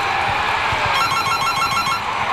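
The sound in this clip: A telephone rings with a rapid, repeated electronic trill lasting about a second, over a constant background hiss.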